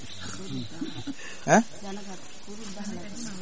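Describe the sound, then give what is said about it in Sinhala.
A dog gives a single short, sharp bark that briefly rises above a voice talking throughout. “එතකොට මේ මොකද්ද? බලන්න. බල්ලෙක්. කොහොමද දැනගත්තේ බල්ලෙක් කියලා?”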